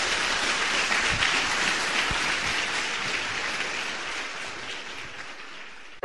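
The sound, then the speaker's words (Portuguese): Applause from an audience at a church service: dense, continuous clapping that holds steady, eases slightly toward the end, then cuts off abruptly. “Vamos aplaudir nosso Senhor bem forte.”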